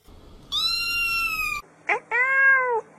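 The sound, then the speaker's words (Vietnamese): A fluffy cat meows twice, each a clear, tonal, drawn-out cry. The first meow is longer and the second is shorter. “Cô mèo cục lông xù.”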